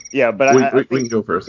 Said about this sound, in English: And folks, that was the sound of our timer. It is crickets, meaning there's no double entendre there.